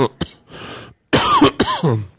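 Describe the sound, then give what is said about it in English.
Coughing and throat clearing after a drink went down the wrong pipe: a short harsh burst, a rough wheezy stretch, then a few loud, raspy coughs close together with no talking. “It's really bad when you take a drink and it goes down the wrong pipe.”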